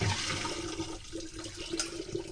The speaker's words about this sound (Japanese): こうザルとボウルを重ねてお水を注いで、まずは一回きれいなお水でお米を浸してからすぐに捨てちゃいます。